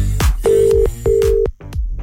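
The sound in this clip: A telephone rings unanswered, giving two long, steady ring bursts in a row, each cut off before a short gap, mixed with other brief sounds in between.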